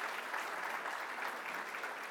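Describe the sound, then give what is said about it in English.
Audience applause for a group of girls at a children's church gathering: a dense, continuous patter of many clapping hands that holds steady and fairly loud throughout. “Give these girls a big clap.”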